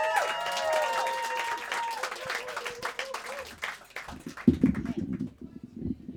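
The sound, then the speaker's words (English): A live audience claps and cheers as a poet is called onto the stage at a performance show. The clapping is loose and uneven, with brief vocal cheers, and grows sharper and more distinct toward the end. “Please go wild and crazy for Tina Sedaho. Make some noise for Tina!”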